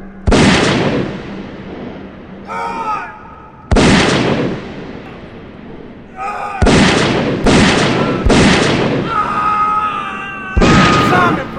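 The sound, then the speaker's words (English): Gunshots in a tense, frightened scene, several loud, sharp blasts spaced a second or more apart, each with a decaying tail, with shouting voices heard in the gaps between shots. “He's shooting Phipps, Simon!”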